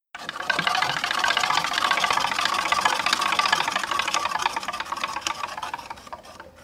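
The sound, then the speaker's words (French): A prize wheel spins during a game, giving a dense, rapid run of clicking ticks that lasts about six seconds before thinning and fading out. “de lancer, de faire tourner la roue. Tu peux lancer quand tu veux.”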